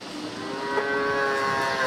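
A calf moos on a farm in Hohenlohe, Baden-Württemberg, during morning feeding with buckets of milk: one long, drawn-out, fairly loud call with a steady tone that holds for the whole clip.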